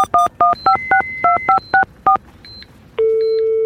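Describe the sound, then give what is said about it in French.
A telephone number is dialed on a keypad, ten quick, clear touch-tone beeps in an uneven rhythm, followed by a few faint tones and then a steady, continuous line tone. “Bon, maintenant il faut que j'appelle Nathalie.”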